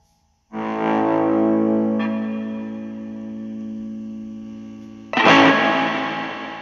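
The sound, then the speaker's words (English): A guitar with a capo played through a Buzztone fuzz pedal with heavy reverb. A loud, buzzy, distorted chord rings and slowly fades, and a second strum near the end brings back a bright, harsh attack. “I'll use a capo here. So let's hear the Buzztone.”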